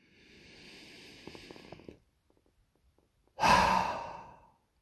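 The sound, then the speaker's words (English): A full cleansing breath: a long, soft, airy inhale lasting about two seconds, a brief pause, then a louder, rushing exhale that tapers off. No one speaks. “Full cleansing breath.”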